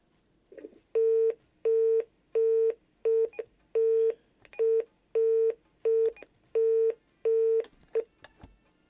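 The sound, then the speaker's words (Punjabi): A dropped-call line tone on a radio call-in show: a long series of identical short beeps at one fixed pitch, evenly spaced and equally loud, with no voices. “ਜੀ ਸਹੀ, ਕੋਈ ਸੱਜਣ ਸਾਰੇ ਨਾਲ ਲੈਣ 'ਤੇ ਹਨ ਲੇਕਿਨ ਕਾਲ drop ਥੀ ਗਈ।”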